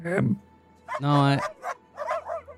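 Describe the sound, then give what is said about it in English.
Hungry dogs barking and whining: a sharp yip, then a longer, drawn-out whining bark, followed by a few shorter yelps. “Actually, all the dogs might be a little bit hungry, huh?”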